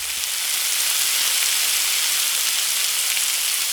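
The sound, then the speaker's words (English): Grease frying chicken in a skillet on a stovetop gives a steady, dense, even hiss that holds at one level without pause. “My grandma's skillet. It's grease frying in the skillet, and it's fried chicken that she used to fry in a skillet on top of the oven.”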